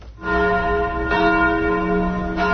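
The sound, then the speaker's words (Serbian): Church bells ring at a church in Belgrade during a ceremony for the arrival of a ruler's relics. The ringing is loud, continuous and richly resonant, with fresh strikes layered over the sustained tones and no talk. “Crkvena zvona označila su trenutak kada je episkop Toplički Arsenije uneo mošti despota Stefana Lazarevića u Vaznesensku crkvu.”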